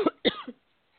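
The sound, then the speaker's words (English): A person coughing and choking after catching their breath: two short, harsh coughs in quick succession, the second trailing off, then silence. “I caught my breath and started choking. I thought I ought to mute myself, but I muted the wrong Jo.”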